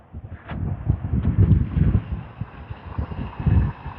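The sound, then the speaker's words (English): Chilly wind gusting outdoors on a cloudy 60-degree day, heard while walking: low rumbling buffets that swell and ease in uneven waves, with no talking. “60 degrees, really cloudy. The wind is really chilly.”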